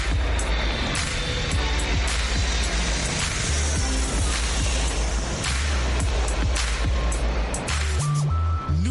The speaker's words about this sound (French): Attachez vos ceintures de sécurité car dans un instant, nous quittons Washington DC. Aujourd'hui à Washington, il pleuvine, ça c'est sûr. Donc on s'est dit que là-bas au-dessus, là, ça sera un peu orageux. Attachez vos ceintures de sécurité, les amis, on décolle.